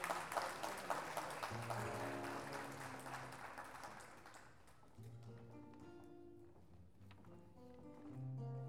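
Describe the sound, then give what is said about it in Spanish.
Applause follows a musical performance at an intercultural gathering of living languages in Salta. A crowd claps steadily for a few seconds, then the clapping thins and fades as low sustained tones carry on quietly. “un fuerte aplauso por esta hermosa música.”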